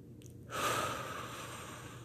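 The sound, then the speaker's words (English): One deep breath, slow and airy, starts after a short quiet moment and then trails off softly as a faint, hissy exhale. “deep breaths, paying attention to the toes.”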